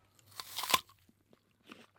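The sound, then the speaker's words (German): A crisp crunch as someone bites into a freshly picked, sour red apple from a Mecklenburg orchard. A cluster of sharp cracks builds to one loud bite, then a fainter crunch of chewing follows after a short pause. “sie hat beide Äpfel gepflückt für mich. Also, ich probiere den jetzt mal.”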